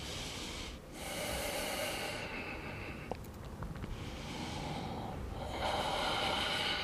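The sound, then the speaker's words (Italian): Slow, deep breaths in and out during a core exercise on the floor: a few long, airy, hissing inhales and exhales that alternate with short pauses between them, steady and fairly loud, with no talking. “Facciamo altri 3, inspiro, espiro, 2,”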